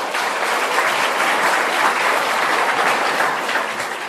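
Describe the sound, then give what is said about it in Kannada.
Sustained audience applause at an agricultural event in Mangaluru, a dense, steady wash of many hands clapping for about four seconds and easing slightly at the end. “ಅನ್ಸುದಾದ್ರೆ ಒಂದ್ಸಲ ಚಪ್ಪಾಳೆ ಹೊಡೀರಿ.”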